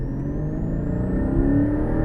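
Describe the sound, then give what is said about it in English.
Car engine held at 3,000 rpm after a downshift at just under 50 mph, giving a turbine-like sound: a steady low hum and rumble with a faint thin whine that rises slowly in pitch. “if I flick down the box, 3,000 revs, there's a sort of a turbine sound.”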